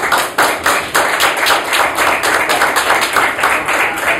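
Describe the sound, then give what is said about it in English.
Audience applause at the close of a presentation session: dense, steady clapping from many hands, fairly loud and even throughout, with no talk over it. “Well, thank you very much, and a big applause”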